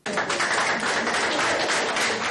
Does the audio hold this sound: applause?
yes